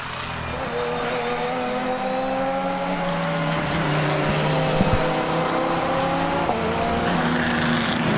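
Porsche 911 GT3 R race cars roar through a GT3 race, with several overlapping engine tones rising and falling in pitch under a loud, continuous wash of engine noise.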